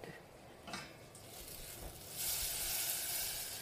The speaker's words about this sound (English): melt the butter and uh, I will put just a teeny tiny little bit of lemon when it is cold.